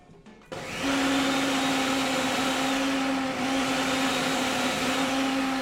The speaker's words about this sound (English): All right, so I have raw garlic and I have onions, so we're going to blend that up.